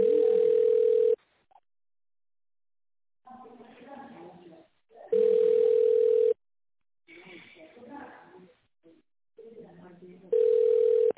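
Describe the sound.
A telephone ringback tone sounds while the caller waits for a company operator. It comes as three steady, single-pitched bursts about five seconds apart, with a recorded voice speaking in the gaps between them.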